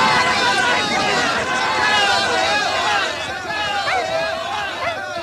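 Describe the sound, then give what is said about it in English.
Greyhounds hurtle out of the traps after a mechanical rabbit at a dog track as a small crowd watches, giving a continuous rush of running movement under a steady murmur of crowd babble. “A man presses a lever and the rabbit sets off. A small crowd watches as the dogs hurtle out of the traps.”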